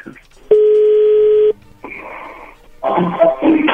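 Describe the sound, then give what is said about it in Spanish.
A telephone is redialed: one long, steady electronic dialing tone sounds for about a second, followed after short pauses by further tonal bursts mixed with noisier line sounds. “¿Puedes marcar de vuelta? Sí, le están marcando de nuevo.”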